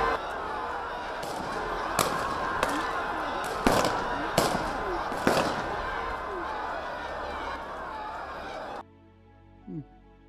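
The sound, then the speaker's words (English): Gunshots ring out as people gather to pray in South Africa: several sharp, loud cracks punch through a dense, noisy crowd background, spread irregularly over the first half before the sound cuts abruptly to near quiet. “They call it noise. They are shooting.”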